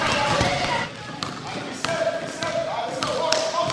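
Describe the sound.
Basketball bouncing as boys play, a few sharp thumps at an uneven pace under a steady wash of voices.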